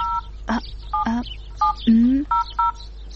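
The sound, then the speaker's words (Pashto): A telephone number is dialed on a keypad: five short two-tone beeps, spaced irregularly, over a low steady hum. “ته صبر چې اوس فاطمې ته زنګ ووهم.”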